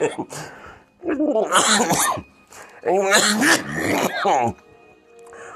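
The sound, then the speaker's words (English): Someone breaks into coughing and throat clearing in two rough, voiced bursts of a second or more each, loud and raspy, separated by a short quiet pause and trailing off into calm. “Maybe I'm just coughing because, you know, I,”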